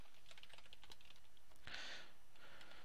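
Quiet, rapid keystrokes on a computer keyboard as JavaScript code is typed. Many light clicks come in a steady stream, with a brief louder flurry partway through and no voices.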